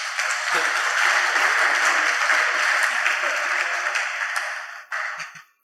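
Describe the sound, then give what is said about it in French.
A church audience applauds the pastor at a French-language service. The clapping is dense and sustained, then fades near the end, leaving a few brief scattered sounds. “Est-ce qu'on peut acclamer le pasteur?”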